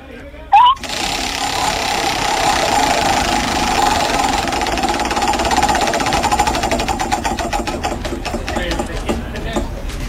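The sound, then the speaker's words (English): A prize wheel spins on a game show, giving off a dense run of rapid ratcheting clicks that holds steady and loud. Toward the end the ticks spread out as the wheel slows. “Should we spin that wheel? Please spin the wheel.”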